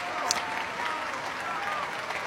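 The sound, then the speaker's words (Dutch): Applause and bravo calls after a cello concerto in the Plechelmus Basilica in Oldenzaal during the Stift Festival: continuous, dense clapping with shouted voices mixed in. “En dit bravo geroep en applaus, het ging nog minutenlang door in de Plegelmus Basiliek in Oldenzaal.”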